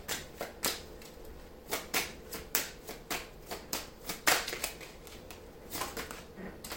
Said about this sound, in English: Let me take a card right quick from this clarification deck.